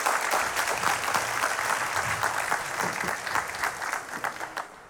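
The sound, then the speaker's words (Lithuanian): An audience applauds to welcome a guest at an evening show, with loud, dense clapping that holds steady and then eases slightly toward the end. “Ponios ir ponai, pasitikime plojimais profesorius Virginijus Šikšnys.”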